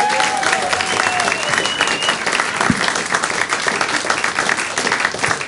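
A concert audience in Ohio applauds as a band introduces its songwriter, who plays guitar and banjo. The clapping is loud, sustained and dense, with a thin whistle gliding above it early on.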